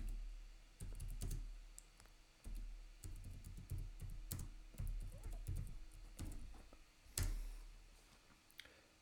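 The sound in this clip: Soft typing on a computer keyboard as a chat message is written, with many faint clicks and taps in irregular bursts separated by short pauses. No one speaks.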